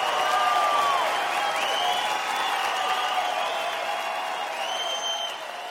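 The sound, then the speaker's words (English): Steady audience applause at the close of a Lisa Lampanelli comedy show in Santa Rosa, continuing for several seconds before thinning slightly near the end. “Clap for my gay friends tonight who are amazing.”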